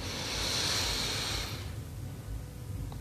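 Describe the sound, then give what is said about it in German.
A deep breath drawn in during a guided meditation, heard as a soft, airy hiss lasting about a second and a half before fading into near quiet. “Dritten tiefen Atemzug und atme ein.”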